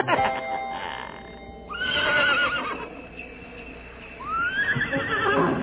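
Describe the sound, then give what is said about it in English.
Horses pulling an open sleigh on a snowy night ride out to a skating pond whinny twice, each a loud, shrill neigh with a wavering, falling pitch, over a steady background. “That night, it was so beautiful, they all went for a sleigh ride out to the skating pond. Oh, what fun it is to ride in a one-horse open sleigh.”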